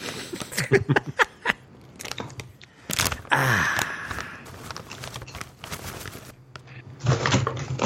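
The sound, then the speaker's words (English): Someone struggles to open a crinkly snack bag. Irregular rustles, crackles and tugging noises come first, then a louder, denser crinkling burst in the middle, and more crinkling follows near the end. “Let's have a little taste. Can't get my bag open.”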